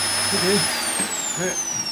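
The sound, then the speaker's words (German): A vacuum cleaner runs in a room with a loud steady whine, and partway through its high tone begins sliding downward as the motor winds down. Voices talk over the noise. “jetzt mach doch mal den Staubsauger aus!”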